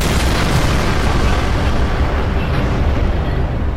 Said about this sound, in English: It contorts against the blinding force, writhes, bulges obscenely, and then, with terrific finality, it explodes.